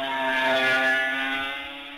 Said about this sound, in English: Tom Herron at Ballacrane. Another rider coming into view now. I let you hear the machine. It's Tom Herron.